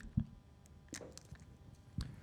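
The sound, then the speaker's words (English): Someone drinking water: a few soft, low gulps and wet swallowing sounds, quiet and spaced apart, with no talk. “I'll give you a second to finish your water real quick.”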